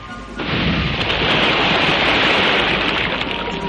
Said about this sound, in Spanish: En la pantalla el avión cae al mar.